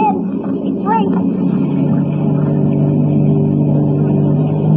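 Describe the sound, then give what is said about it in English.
A boat's engine drones steadily as the boat is cast off and sets off, a low, continuous rumble with a brief voice near the start. “Okay. Cast her off. The sky is light now. We don't want Boris to see us stealing his boat.”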